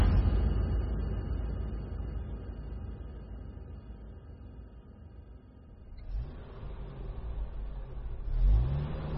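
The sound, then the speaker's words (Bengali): A car engine runs as the car turns onto a road, a steady mid-pitched hum that dips. The engine then revs up, climbing in pitch and growing louder toward the end as the car accelerates. “দেবের apartment থেকে বেরিয়ে college যাওয়ার রাস্তায় গাড়িটা ঘোরালাম।”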